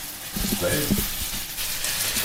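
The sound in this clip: Onions and garlic fry in a pan, a constant hissing sizzle heard under a person talking.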